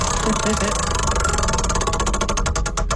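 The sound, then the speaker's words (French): A prize wheel spins during a game segment, giving rapid clicks that space out and slow toward the end, over a loud, low background rumble. “OK, on va tourner la roue.”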